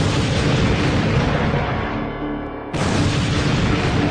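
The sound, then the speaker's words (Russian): Mortar fire shelling a camp: a dense, continuous roar of heavy booming blasts that dips briefly and then surges back at full loudness. “через 5 минут немцы засекли дым и начали обстреливать лагерь из минометов.”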